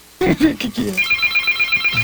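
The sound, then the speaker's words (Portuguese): A telephone rings with a rapid, even electronic trill of short repeating pulses that starts right after a brief burst of a person talking and continues steadily to the end. “Que isso, gente? Tá ligando uma hora dessa?”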